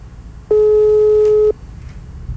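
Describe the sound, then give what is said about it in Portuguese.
Telephone ringback tone during an outgoing call as the line rings: one loud, steady, low beep lasting about a second, with quiet line hiss before and after. “Vamos lá, ligação em andamento. Tá chamando.”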